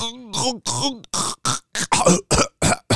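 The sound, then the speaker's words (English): A voice imitates someone coughing and sputtering out water. It makes many harsh, gurgling vocal bursts in a rapid, choppy rhythm, with short gaps between them. “coughing out the water.”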